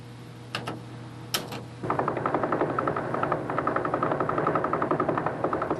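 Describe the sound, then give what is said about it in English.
A radio recording of a rapidly spinning pulsar: a fast, steady train of many regular pulses over static hiss, preceded by a few scattered clicks. “And pulsars sound like this.”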